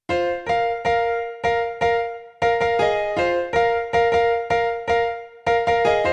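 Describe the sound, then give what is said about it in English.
A piano plays a melody in parallel fifths, with many struck two-note intervals in a mostly even rhythm, each note ringing and fading before the next, broken by a couple of brief pauses. “On a piano, parallel fifths would sound like this.”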